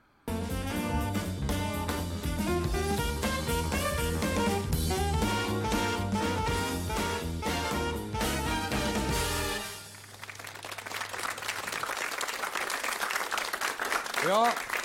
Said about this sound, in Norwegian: Greit, vi kjører jingle.